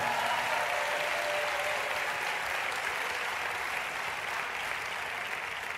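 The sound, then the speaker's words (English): A church audience claps in support after being urged to make more noise. The thick, continuous applause stays sustained and even throughout. “Put your hands together. Come on, make more noise to support people.”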